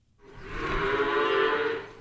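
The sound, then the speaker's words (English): A single long, low moo from a dairy cow on a farm near Landenburg in Chester County, Pennsylvania, that has operated for more than 200 years. The call swells in quickly, holds steady and strong for over a second, then fades. “Barkley Hoops raises a few hundred dairy cows on the land.”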